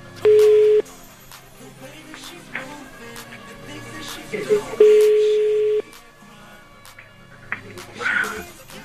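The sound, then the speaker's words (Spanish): Phone line tones sound as a number is dialed: two steady tones, the second one longer, with brief keypad blips scattered between them and voices faintly underneath. “Ok, marcamos otra línea, marcamos.”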